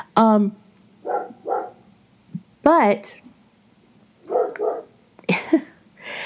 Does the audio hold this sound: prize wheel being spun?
no

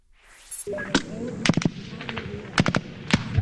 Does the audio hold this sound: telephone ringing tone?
no

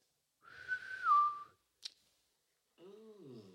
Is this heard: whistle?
yes

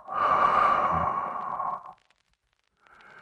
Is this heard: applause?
no

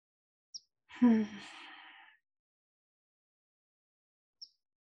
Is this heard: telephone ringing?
no

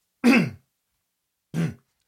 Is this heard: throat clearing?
yes

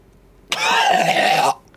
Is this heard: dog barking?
no

